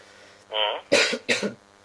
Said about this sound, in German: Entschuldigung fürs Husten, es geht nicht anders.